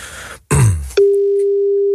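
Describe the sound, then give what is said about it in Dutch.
A steady telephone line tone on a call to the speaking clock service. After about a second of loud, noisy rustle, one even, loud tone holds for roughly a second and then stops. “Bellen we het eventjes.”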